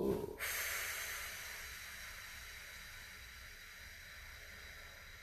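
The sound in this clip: Breathing during a voice-training warm-up: a brief, loud burst of breath, then a long, steady, airy exhale that hisses on alone and slowly fades.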